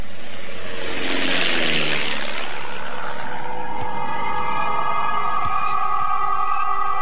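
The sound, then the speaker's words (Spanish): A squadron of five warplanes flies overhead beneath a snowy, overcast sky, a loud broad roar swelling early and settling into sustained, layered droning engine tones that hold steady to the end. “Una escuadrilla de 5 aviones de guerra puede reconocerse difusamente tras el cielo cubierto con la nieve fluorescente.”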